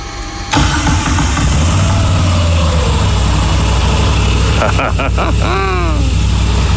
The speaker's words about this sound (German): Und dieser Motor sorgt für den charakteristischen Sound der Moto Guzzi. Und den wollen wir jetzt ausprobieren. Deswegen lege ich mal ganz kurz das Mikro ab. Kupplung drücken und Zündung.